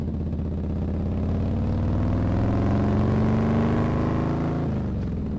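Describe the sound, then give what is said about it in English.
A pack of Harley-Davidson motorcycles roars by on a summer road trip in California, making a loud, steady, throaty engine rumble with rich harmonics that creep slowly upward in pitch before dipping near the end. “You're left in the dust as a pack of gleaming Harley-Davidsons roars by.”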